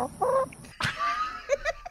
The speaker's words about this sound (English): You know, that was either the chicken talking to Tucker or Eric Swalwell was just off camera.